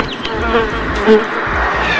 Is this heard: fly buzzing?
yes